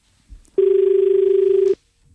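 A telephone rings with an incoming call to a farming call-in line: one steady electronic tone lasting about a second, loud and alone, preceded by a faint soft knock.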